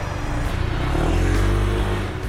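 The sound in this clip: A motorcycle drives past, its engine a loud, steady low rumble that swells slightly and holds for about two seconds, with no voices.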